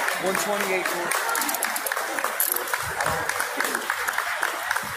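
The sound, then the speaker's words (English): An audience claps in a dense, steady wash of applause, with voices talking over it. “You're clapping.”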